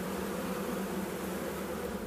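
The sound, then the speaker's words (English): Honeybees buzz at an opened hive, a dense, steady droning hum that holds level throughout with no talk. “This is the first time I've ever been to a hive, like opened up and everything.”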